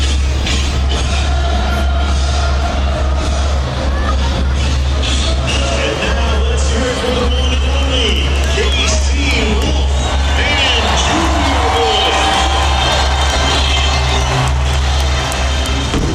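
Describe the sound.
A crowd roars at a San Francisco 49ers vs Kansas City Chiefs preseason game, a loud, continuous wash of massed voices over a constant low hum.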